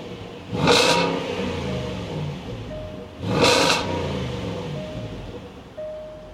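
A 2014 Range Rover Sport Supercharged engine gives two sharp, gurgling revs a few seconds apart, each swelling quickly and then settling back to a loud, steady idle.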